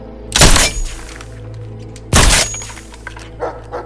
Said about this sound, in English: uses a nail gun to repair the broken door